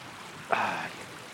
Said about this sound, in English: And the stream has broken into three separate streamlets.